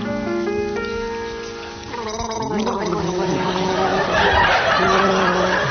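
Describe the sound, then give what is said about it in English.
Gargling by people trying to carry a song tune for a comedy panel game, with loud bubbling, rattling throat noise that follows steady held tones and then builds into dense, continuous wet gurgling. “Tim and Willie will begin gargling as soon as the studio audience have donned their waterproof clothing. Which is now.”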